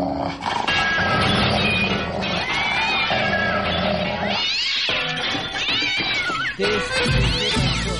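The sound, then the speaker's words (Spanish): A cat meowing repeatedly, with several drawn-out, wavering cries that rise and fall in pitch over a dense, continuous background of other sound. “Gatito, cuchito, cuchito, cuchito, cuchito, venga para acá.”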